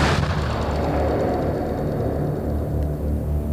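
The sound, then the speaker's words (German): An explosion with a huge jet of flame on a car park: a loud blast at the start that turns into a sustained, deep roaring rumble with no voices. “Plötzlich schoss auf dem Parkplatz neben dem grünen Baum eine riesige Stichflamme empor. Dann folgte ein gewaltiger Knall.”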